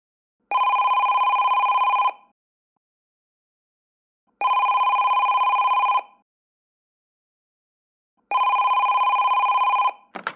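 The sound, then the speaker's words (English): Three long, steady ring tones of an international telephone call, each lasting about a second and a half with even pauses of about two seconds between them. A brief click cuts in at the very end. “Notice that we are listening to an international telephone call.”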